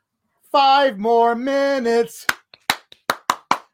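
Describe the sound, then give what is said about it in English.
Hand claps ring out sharply, seven quick slaps in an uneven rhythm, each crisp and fairly loud. A short sustained tonal sound comes just before them. “I'm not going to keep clapping because my dog's already gone insane.”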